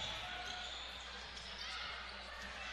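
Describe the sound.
A basketball is dribbled up the court during a women's game. The bouncing is soft and regular, sitting under a steady wash of crowd and arena noise.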